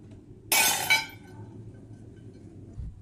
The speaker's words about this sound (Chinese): 每次窑炉烧出来肯定有不满意的作品，这摔了20多件